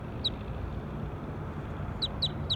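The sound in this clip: A bird calls during a recording session with a few short, high, faint chirps, one early and a quick run of three near the end, over a steady low background hiss.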